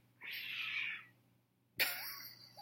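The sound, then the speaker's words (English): A cat gives two short, harsh cries separated by a quiet pause; the first is a noisy, breathy sound and the second starts suddenly and is sharper, with a faint steady hum underneath. “This fucking cat.”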